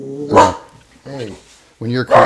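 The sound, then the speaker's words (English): A pet dog barking indoors: four sharp, loud barks in quick succession, separated by short pauses. “my dog's tripping out”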